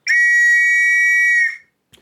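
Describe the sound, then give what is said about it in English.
One long, shrill blast on a whistle, blown as a signal for a battalion to advance. The piercing steady note holds, then cuts off, and a faint click follows. “I drew my revolver and placed my whistle in my mouth. I blew my whistle.”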